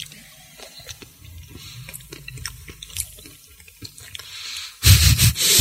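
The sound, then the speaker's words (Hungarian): Wet chewing and mouth noises of someone eating ASMR-style: a steady run of soft squishy smacks and clicks, then a louder, denser burst of squelching at the end, with no talking. “Hogy eszel, miközben magyarázom. De közben ASMR-re átállunk. Ja. Várjál. Lenyelem”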